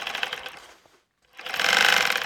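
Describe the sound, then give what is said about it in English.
A sewing machine stitches sealskin mittens trimmed with sea otter fur in a living room, running in two loud bursts of rapid mechanical whirring separated by a brief silent pause. “He's hunched over a sewing machine in his living room.”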